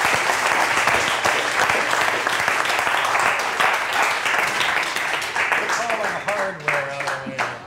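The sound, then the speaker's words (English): An audience gives a loud, sustained ovation of dense applause at the close of a talk on being futuristic. The clapping holds steady throughout and eases slightly toward the end. “One ovation is not enough. Can we get another round of applause for that, please?”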